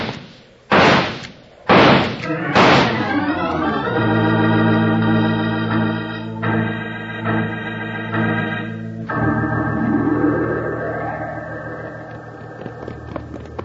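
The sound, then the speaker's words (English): Three loud, sharp gunshots ring out about a second apart, followed by a sustained tonal chord that continues to the end. “I'm shooting down the first Moon Mountain man right now.”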